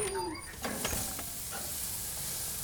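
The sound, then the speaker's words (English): Faint, steady hiss of beef burger patties sizzling on a grill at home on burger night. A few soft clicks come early, then the sizzle settles into an even crackle. “burger night at our house, so I'm headed out to put a few patties on the grill.”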